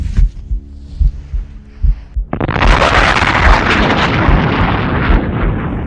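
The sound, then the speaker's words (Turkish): Cannon fire and a shell striking a ship: a few low, throbbing thumps, then a sudden loud blast that swells into a dense, sustained roar to the end. “Şu gemi. Mermiyi tam onun göbeğine konduracağız. Hazır mısın? Hazırım. Beni mahcup etme. Haydi bismillah. Ateş.”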